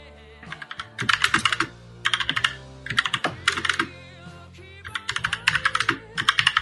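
Rapid typing on a computer keyboard comes in quick bursts of clattering key clicks separated by short pauses, fairly soft and with no voices.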